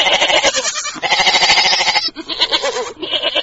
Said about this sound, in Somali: halkani waa suuqa xoolaha ee degmada dayniile boqolaal qof ayaa dhooban gudaha suuqa kuwaasoo isugu jira ganacsatada ariga iyo qaybaha kale ee bulshada